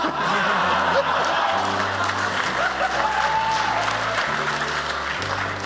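Steady applause from a game-show studio audience, dense and continuous clapping that runs loud for several seconds over low, sustained tones.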